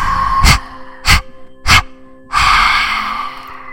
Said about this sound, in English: Inhaling now. Hold. Exhale, exhale, exhale, exhale, exhale.